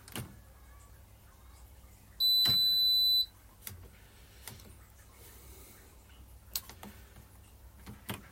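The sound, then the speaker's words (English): A washing machine being set: one steady high electronic beep lasting about a second, with a few scattered clicks before and after, fairly faint overall. “sorry, I apologize. I'm just setting the washing machine here.”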